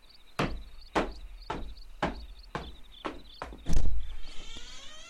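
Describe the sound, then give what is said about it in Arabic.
Knocking on a door: a regular series of dull, heavy thuds with even gaps, one louder knock landing near the end. “من الطارق؟ افتح الباب يا آملة.”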